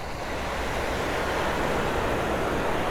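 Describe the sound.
Ocean waves at the sea wash in a steady, dense rush of surf that holds an even loudness throughout, with no distinct breaks between swells and no voices.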